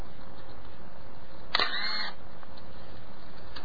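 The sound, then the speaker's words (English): A single camera shutter fires, a crisp mechanical click followed by a short whirring snap. It stands out briefly over a steady, faint background hiss. “This is the sound of a camera.”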